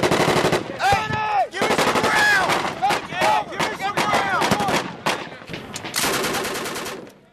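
Soldiers firing in combat: loud, sustained gunfire with rapid machine-gun bursts and sharp individual shots that overlap almost continuously, with a few brief gaps between volleys.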